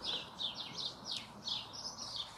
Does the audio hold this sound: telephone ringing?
no